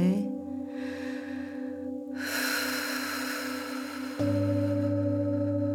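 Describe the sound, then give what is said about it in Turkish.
A forceful breath is blown out through the mouth as part of a guided release meditation. It is a broad, airy rush that sets in partway through and sits over a steady, sustained musical drone with no talk. “Her birini o nefesin içine koyarak güçlü bir şekilde ağzından üfle.”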